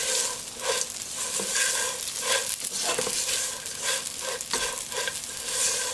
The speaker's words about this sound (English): And then I'm going to add my slivered almonds in there. Now I'm going to mix everything together.